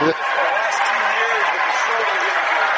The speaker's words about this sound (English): he's going to check in now, and he gets a standing ovation from the Jackson Center crowd